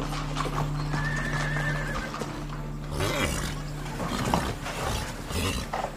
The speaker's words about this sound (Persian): کالسک وای میسته.